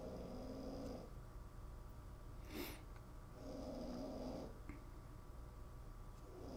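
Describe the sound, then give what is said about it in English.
A dog snoring, faint and low, with two slow, soft breaths heard over steady background hiss and a brief sharp sound between them. “That's my dog. That's my dog snoring over there.”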